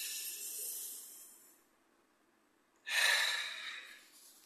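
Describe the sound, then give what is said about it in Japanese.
Deep breathing: two long, airy breaths separated by a short silence, the first trailing off gradually and the second starting abruptly and loudly before easing away. “深呼吸して脳にいっぱい酸素を送りましょう。”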